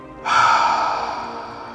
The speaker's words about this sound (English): Inhale, nose. Exhale, mouth.